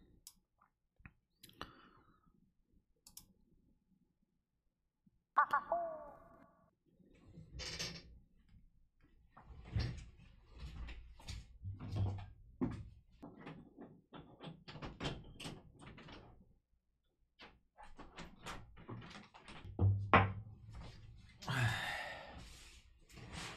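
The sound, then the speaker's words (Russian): A window is opened with a scattered series of faint clicks, knocks and rattles. Some handling noises are sharper and some softer, with quiet gaps between them across the whole stretch. “Ну, открыл окошко, посмотрим, может, воздух свежий придет.”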